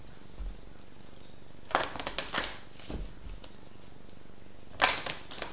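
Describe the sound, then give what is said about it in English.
Cards flick and slide as a numerology card is drawn from a deck. Two short bursts of crisp riffling and rustling are separated by quiet, with fainter handling noises in between. “Let's get a numerology card here.”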